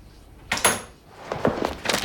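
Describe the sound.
A door bursts open into a house lavatory, giving a sharp knock and a thud, followed by a few further bumps and rattles, all without voices.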